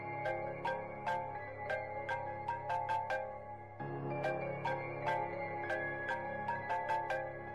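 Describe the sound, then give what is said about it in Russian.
A mobile phone rings in a bedroom late at night, playing a bright, plinking melodic ringtone whose short phrase repeats. The ringing is quiet and steady, with no voices. “Вдруг из Катиной спальни раздался звонок. Кто мог позвонить в столь позднее время? Девочка с интересом пошла брать трубку.”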